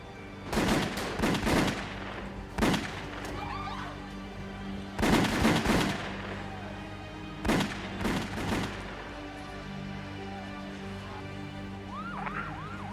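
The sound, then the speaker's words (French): Gunfire sound effect of men opening fire on people stepping out of a car outside a downtown Manhattan restaurant: several loud clusters of sharp, rapid shots separated by quieter gaps, with faint wavering siren-like tones between them. “Au moment où ils sortaient de la voiture, des hommes s'approchèrent d'eux et firent feu.”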